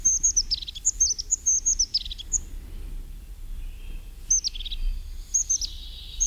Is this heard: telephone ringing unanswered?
no